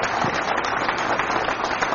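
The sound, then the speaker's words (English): An audience at a worship service claps hands together, producing a dense, even wash of many hands that carries on throughout without a break. “will you give the Lord a hand clap right now? Will you just do that?”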